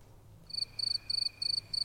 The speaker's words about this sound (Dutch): Kan je hier krekels in monteren?